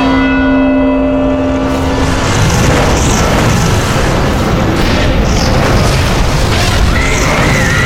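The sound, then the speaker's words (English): Fire and brimstone erupting from a cauldron: a ringing, bell-like tone fades into a loud, sustained roar of rumbling, crackling noise. “Fire and brimstone erupted from the cauldron, instantly incinerating all five congregants.”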